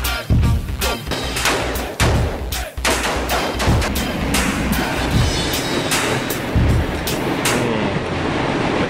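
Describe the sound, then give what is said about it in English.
Gunfire aimed at store-bought bacon as a Texas way of cooking it: many loud, sharp shots in rapid, irregular bursts, one crack after another with no talking. “Gun bacon. Any hunter can track and shoot an animal, but it takes a true outdoorsman to use a gun on meat he already bought at the store.”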